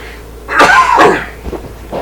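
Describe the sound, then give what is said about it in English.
A loud, rasping cough from a speaker with a dry throat: one strong burst, then a few smaller, fainter breathy sounds. “And I had to cough there.”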